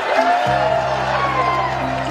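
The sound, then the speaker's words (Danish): Street party crowd cheering after a UK general election exit poll: a dense mass of overlapping voices, shouts and whoops that stays loud throughout. “Folk, de drikker og jubler og hujer og synger og glæder, og det er bare sådan så fedt for alle.”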